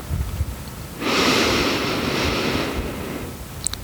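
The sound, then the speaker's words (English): A slow, steady inhale through the nose during a 4-7-8 breathing exercise, an airy hiss lasting about two seconds that rises above quiet background noise, with no voice over it. “inhale through your nose for a count of 4.”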